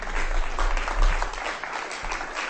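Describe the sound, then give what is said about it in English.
Applause from an audience at a reading as a performer is welcomed, a dense and steady patter of many hands clapping at once, holding fairly even in loudness before easing slightly toward the end. “That is Nick. Give him a hand.”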